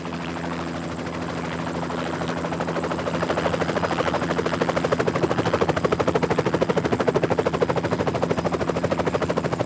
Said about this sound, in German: Aber wenn ein Hubschrauber von links nach rechts fliegen soll, dann brauche ich mindestens Stereo.